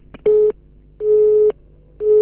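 Telephone busy tone after a call is cut off: three steady, mid-pitched beeps of equal length with even silent gaps, the last one running to the end, loud and alone.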